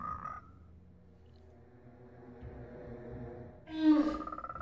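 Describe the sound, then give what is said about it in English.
A frog croaks in a kung fu film scene where a man turns into a frog. Low droning tones lead into one loud, deep croak that breaks into a rapid pulsing rattle near the end. “This dude literally did just turn into a frog.”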